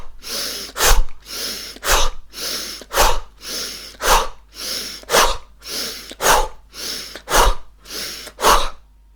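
Breathing exercise done while the raised arms are pulled quickly down on both sides: many rhythmic cycles of a breathy inhale swelling into a sharp, forceful exhale through the nose, steady and evenly paced with no talk.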